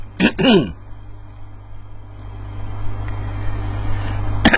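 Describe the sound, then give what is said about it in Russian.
Car driving at 62 km/h on a road limited to 20 km/h, a low steady engine and road rumble that grows slightly louder, preceded by a couple of brief throat-clearing vocal noises. “Слышите звуки? Это я еду со скоростью 62 км в час, там, где можно ехать только 20.”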